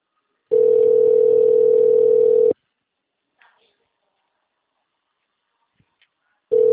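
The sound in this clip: A telephone call tone rings while a caller dials a transport company: a steady, loud, low tone holds for about two seconds, then silence, and the same tone starts again at the very end.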